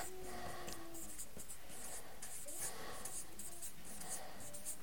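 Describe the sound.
Faint, continuous scratching of handwriting, a soft stroke-by-stroke rasp of writing by hand that stays low and steady throughout.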